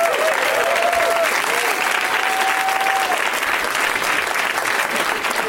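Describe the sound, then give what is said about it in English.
A live comedy-show audience applauds to welcome guests, a sustained, even roar of clapping. A whoop or shout rises over it early on. “Way to milk the applause.”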